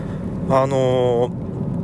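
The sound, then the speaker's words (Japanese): A car driven on the road from Fukuoka toward Kitakyushu gives a steady low rumble of road and engine noise throughout, with a voice briefly heard over it in the middle. “今はですね福岡市の自宅の方から北九州市小倉クロス FM に向かって車を走らせております。”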